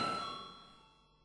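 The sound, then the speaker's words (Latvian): In a parliament chamber, a bell rings before a vote: a single faint metallic ding with a clear tonal ring that fades steadily over about a second. “Lūdzu zvanu.”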